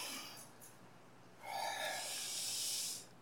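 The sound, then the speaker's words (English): A group takes a deep breath together: a soft, airy hiss swells and holds for about a second and a half, then fades, with no talk over it. “Let's all take a deep breath together once again.”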